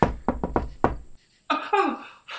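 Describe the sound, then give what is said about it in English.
Knuckle taps on a window, five sharp, hollow knocks in a quick, slightly uneven rhythm, loud against a quiet background, followed by a short stretch of other noise. “Hang on, let me tap on this window.”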